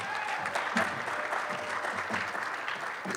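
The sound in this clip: Applause from an audience welcoming the next speaker at an event, steady dense clapping that holds at an even level for about three seconds, with no voices.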